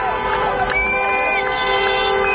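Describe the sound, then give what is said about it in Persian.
Residents of southern Lebanon cheer and chant slogans while holding Lebanese flags as the Lebanese army deploys near the Israeli border. Dense crowd noise carries sustained tonal lines, holding loud and steady throughout. “مردمی که پرچم لبنان به دست شعار می دادند ارتشی جز ارتش لبنان را نمی خواهیم.”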